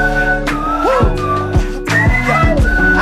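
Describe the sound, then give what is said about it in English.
A person whistles a gliding melody over a musical backing with steady bass and chords, the whistled notes sliding up and down in short phrases. “Can you whistle?”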